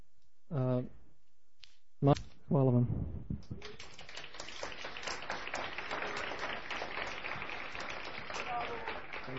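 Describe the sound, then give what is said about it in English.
Audience applause for a speaker after a talk. A voice speaks in short bursts, then clapping starts from many hands and continues as an even, crackling patter to the end, quieter than the opening voice. “Let us give a warm applause to Ripuha. Bravo!”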